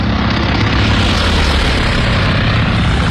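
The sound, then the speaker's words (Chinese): Propeller warplanes, Japanese aircraft returning over the sea after striking Midway, make a loud, steady engine drone that holds without a break throughout. “日军飞机在首次袭击中途岛后返航，他们在寻找自己的航母，”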